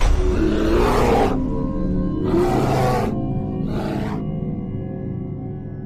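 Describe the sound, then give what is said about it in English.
A grizzly bear roars in three deep, rumbling bursts separated by short silences, each burst shorter than the one before, with the sound trailing off after the last. “It's a grizzly. Should we get out of here? No. We're gonna watch and listen.”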